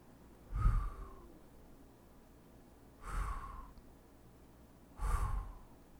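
Breathing during a guided breathing exercise: three soft, airy breaths, each a brief sighing rush of air, spaced roughly two seconds apart and quiet against a faint background, with no talk.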